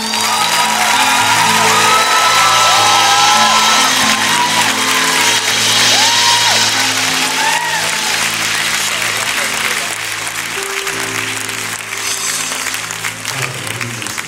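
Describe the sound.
An audience cheers and applauds to welcome a speaker, with dense, steady clapping, whoops and shouts for about fourteen seconds. Sustained keyboard chords shift underneath, and the ovation eases slightly toward the end.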